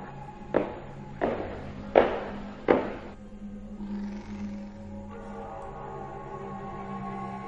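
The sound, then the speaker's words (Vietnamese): Light footsteps climbing wooden stairs at night: four spaced, soft thuds in a slow rhythm, followed by a faint, steady background hum. “bác Cổ nghe có tiếng bước chân đang đi rất nhẹ lên cầu thang gỗ”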